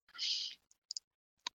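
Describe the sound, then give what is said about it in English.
Typing on a keyboard gives a few sparse, quiet clicks, some in a quick pair, following a short soft hissing burst at the start. “Typing.”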